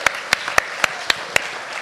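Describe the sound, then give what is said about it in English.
Scattered audience applause: a handful of sharp, separate hand claps at an uneven pace, fairly loud over a faint background hiss. “Give yourself a round of applause.”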